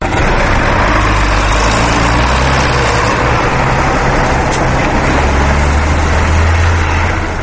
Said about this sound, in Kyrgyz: Дөңгөлөктүү Джон Дир тракторунун боорусуну Кундратит айылынын четиндеги сүдүгөрдү тилип оодарып жатты.